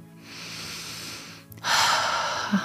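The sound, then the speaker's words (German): A deep inhale taken during a guided meditation. A soft, airy breath first, then a louder and fuller rush of air, heard alone without talk. “Und dann nimm einen tiefen Atemzug.”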